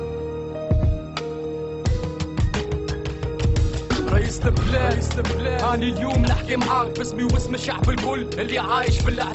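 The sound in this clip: A protest rap song by a Tunisian rapper, with fast Arabic-language vocals delivered over a dense, driving beat and layered backing music, loud and continuous throughout.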